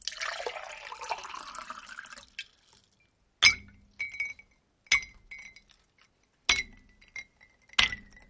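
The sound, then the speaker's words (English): Liquid water pouring into a glass as a continuous bright splashing, followed after a pause by ice dropping into a glass: a series of sharp, ringing clinks spaced irregularly, some with short rattles. “If you guessed that both sounds were water being put into a glass, you're right. But the first sound was water as a liquid, while the second was ice, or water frozen into a solid.”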